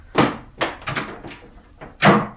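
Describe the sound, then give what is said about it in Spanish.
A bedroom door being closed, heard as a series of dull, hollow thuds and knocks that ends in a louder, heavier shutting thump. “Y me fui a mi cuarto. Qué placer cerrar la puerta que me comunicaba con el resto del mundo.”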